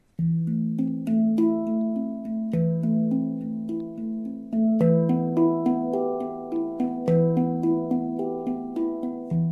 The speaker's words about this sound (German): Also das ist was ähnliches wie eine Trommel. Das ist aus Stahl, also auf jeden Fall aus Metall. Das hat so zwei sozusagen Halbkugeln aufeinander und da sind halt so kleine Dellen drin, auf die man dann draufhaut.